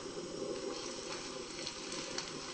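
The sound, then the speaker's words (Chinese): Vegetarian fish frying in hot oil in a pan over lowered heat, giving a steady, faint crackling sizzle that stays even throughout. “油烧了之后把锅关小一点，把素鱼放进去煎的焦焦黄黄的，”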